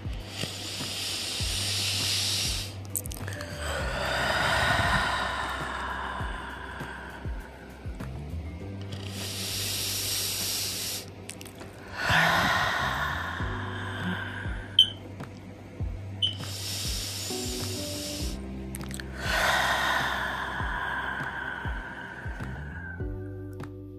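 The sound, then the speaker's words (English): Slow, deep breaths are drawn in through the nose and released through the mouth, repeating a few times as soft, airy hisses over a quiet, sustained musical drone. “Let's start with that first deep breath. In through the nose and out through the mouth.”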